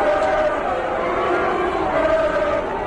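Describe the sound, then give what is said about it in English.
Yankees fans jeer Minnesota Twins rookie pitcher Randy Dobnak at a playoff game, a loud, continuous crowd roar with blended shouting voices that stays dense and steady throughout. “When the Minnesota Twins sent rookie pitcher Randy Dobnak to the mound, the Yankees fans gave him a warm and loving welcome to playoff season in the majors.”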